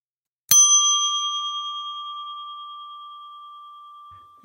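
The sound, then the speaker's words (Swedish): A single bright bell ding strikes once, then rings on as a clear sustained tone that fades slowly over about four seconds. It is heard alone, with no voices. “nu får du plinga”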